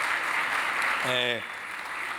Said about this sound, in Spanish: ¿Por qué no le damos un aplauso a Dios por eso, si estás de acuerdo o algo?